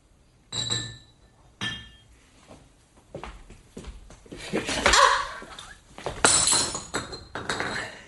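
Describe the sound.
Glass clinking as a drink, Scotch whisky, is served in a glass: a few sharp, bright clinks spaced irregularly, mixed with light clattering of glassware and dishes.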